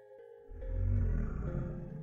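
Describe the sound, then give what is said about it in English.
A deep, guttural roar swells up after a brief quiet start in a jungle setting, a heavy low rumble that builds and then holds, rough and pulsing. “a deep guttural roar echoed through the jungle, sending a shiver down his spine”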